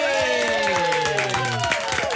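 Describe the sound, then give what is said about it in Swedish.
Applause from a studio audience greeting a returning colleague on a morning show, a steady patter of claps mixed with cheering voices. “Älskar en applåd på morgonen.”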